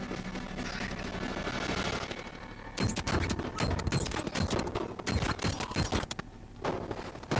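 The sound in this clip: Gunfire in a film scene, dense rapid bursts of loud shots cutting in after a stretch of steady noise.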